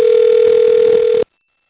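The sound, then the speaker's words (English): Telephone ringback tone on a call to the American Samoa time service: a single loud, steady electronic tone that stops abruptly, followed by silence. “So I'll dial it up as it whizzes through the phone network to American Samoa. We'll get the time in a couple rings here.”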